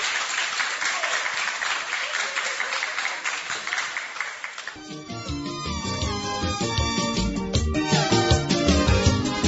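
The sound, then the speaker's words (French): An audience applauds with dense, steady clapping for about five seconds before music takes over. “Merci beaucoup, on acclame pour notre papa.”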